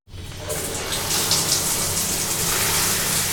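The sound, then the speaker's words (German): A shower runs inside a hot battleship moored at Pearl Harbor, a steady hissing gush of water that starts abruptly and continues unbroken. “Der Matrose will sich erfrischen und den Schweiß abduschen.”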